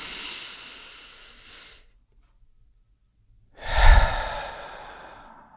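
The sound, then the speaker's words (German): Deep breathing, in through the nose and out through the mouth: two long, soft, airy breaths separated by a silent pause, the second one fuller and louder, with no talking. “Ein- oder zweimal tief durch die Nase ein und durch den Mund aus.”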